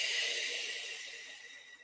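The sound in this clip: A single breath let out slowly in a relaxation exercise, a soft, airy hiss that starts fairly strong and gradually fades away, heard alone.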